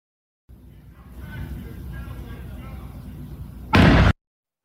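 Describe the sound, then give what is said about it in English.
A flash-bang grenade goes off as FBI agents serve a warrant in Provo, Utah. A stretch of muffled rumbling noise is cut off by one loud, sharp blast that lasts under half a second, followed by silence. “That's the sound of a flash bang, not a gunshot.”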